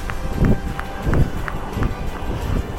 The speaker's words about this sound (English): I forgot my running socks today. So I'm running with no socks, too.